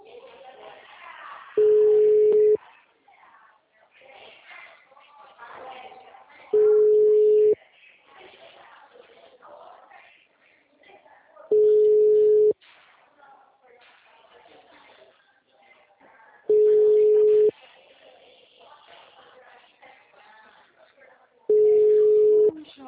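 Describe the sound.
Telephone ringing tone of an outgoing call: five steady mid-pitched beeps, each about a second long and evenly spaced about five seconds apart, with voices talking faintly in the gaps.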